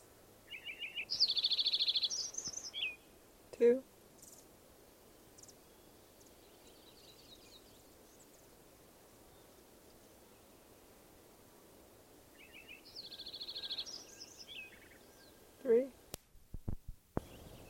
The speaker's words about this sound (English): Lincoln Sparrow number 3.